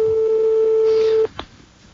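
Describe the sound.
A telephone ring-back tone on an outgoing call waiting to be answered: one loud, steady, unbroken tone that cuts off after about a second and a quarter, followed by a brief click and quiet line noise.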